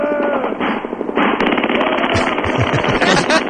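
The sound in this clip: Automatic gunfire rattles in loud, rapid bursts of sharp cracks, firing almost without break and growing denser toward the end.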